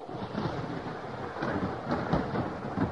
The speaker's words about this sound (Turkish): İşte yağmur başladı anne, bak.